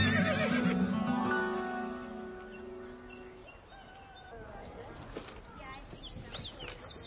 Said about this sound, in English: We need to borrow your horse.